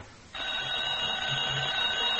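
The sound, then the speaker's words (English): A telephone rings in an antique shop, its bell starting abruptly after a short quiet moment and then ringing steadily and loudly without a break to the end. “I'm about to answer the phone. Never mind, I've got it.”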